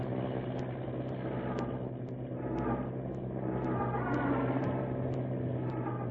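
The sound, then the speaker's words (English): Wright brothers' airplane motor running during takeoff, a steady, low, droning hum with an even tone and no change in level throughout. “Gaining speed now. The plane lurches. Wind tears in a rudder. Orville, stop the motor. Don't try to take off.”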